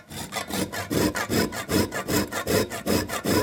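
A whole nutmeg being grated on a grater at a spice shop counter: steady, rhythmic rasping strokes, evenly spaced and fairly loud, each a short scratchy burst, with no talking.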